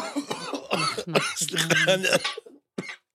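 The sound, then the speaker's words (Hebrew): A man choking and coughing mid-conversation: a rapid run of harsh, strained coughs mixed with vocal noise, then a brief pause and one last short cough. “סליחה, אתם מדברים על מפגש והוא נחנק? הוא נחנק.”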